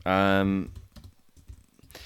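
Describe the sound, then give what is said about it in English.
Typing on a computer keyboard at a desktop during an online meeting: a brief voiced sound opens, then many light, uneven key clicks patter quietly and irregularly to the end. “Oh, God, I can't even type welcome.”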